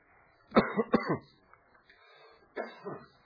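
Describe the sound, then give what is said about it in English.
Harsh, throaty coughing from someone who has had something go down the wrong pipe: a quick burst of several coughs, a pause, then two more. “Excuse me, I had something went down the wrong pipe there”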